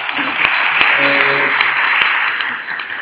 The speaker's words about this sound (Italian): un extra applauso per